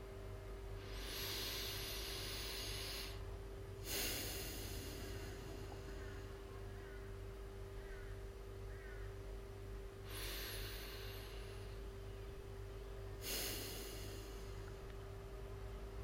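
Slow, deep breaths during a guided reflection exercise: two long airy inhale-and-exhale cycles, soft and faint, rising over a steady low hum with no talking.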